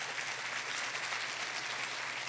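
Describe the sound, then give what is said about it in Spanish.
Applause from a church audience during a bilingual Spanish-English sermon, a steady dense clatter of many hands clapping at even loudness throughout, with no talk over it. “Dale un aplauso”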